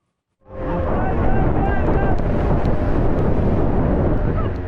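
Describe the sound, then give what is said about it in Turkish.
Strong wind and rain lash the choppy, wave-swollen Bosphorus in Istanbul, a dense, steady roar that rises quickly from near silence and then stays loud and unbroken to the end. “Yağmur yağıyor, rüzgar saatte onlarca kilometre hızla esiyor. İstanbul Boğazı ise dalgalarla kabarıyor.”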